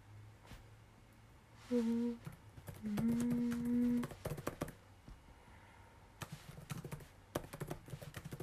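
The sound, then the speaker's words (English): Typing on a computer keyboard, with irregular bursts of light clicking keystrokes and short pauses between runs, fairly quiet throughout. “What is the next sentence that I want to type?”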